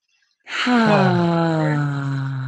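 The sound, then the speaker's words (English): A voiced exhale through the mouth, made as a sound of release during a breathing exercise: after a moment of silence, a long, sighing 'ahh' begins, dips slightly in pitch and holds steady for about two seconds. “take a breath in through the nose, out through the mouth. You can even make the sound again of release, which amplifies it.”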